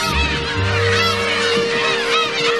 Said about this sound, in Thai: ฝูงนกนางนวลหางดำจะมาเยือนที่นี่ทุกปีระหว่างเดือนมีนาคมถึงสิงหาคม